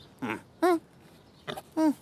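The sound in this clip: A sow grunts in four short, voiced calls that come in two pairs separated by a pause. Each call is brief and moderately loud.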